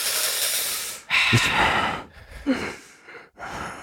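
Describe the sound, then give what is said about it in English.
A Southern dad breathes hard and heavily in a few long, rasping breaths broken by snorting, gasping bursts. The breaths are fairly loud and heard alone, with no talk over them. “You never heard a Southern dad breathe hard?”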